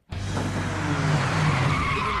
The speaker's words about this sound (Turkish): Spor araba aniden yollarını kesti.